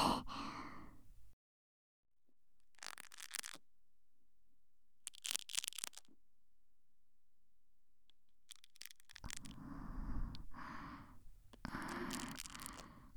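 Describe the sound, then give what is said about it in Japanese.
Soft ASMR breathing close into one ear: a few slow, breathy puffs separated by long silent gaps, then denser, rustling breaths near the end. “ゆっくり、まずはこっちの耳に耳呼吸を入れていきますね。”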